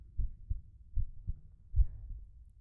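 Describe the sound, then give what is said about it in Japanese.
A mother's heartbeat thumps low and muffled in a steady rhythm, a few soft paired beats repeating evenly with nothing else alongside. “心臓の音を聞いてると落ち着くよね。”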